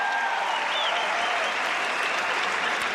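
A home crowd applauds and cheers a Hungarian sprinter at a 100 m race in Budapest, a dense, steady wash of clapping and crowd noise that holds at an even level throughout.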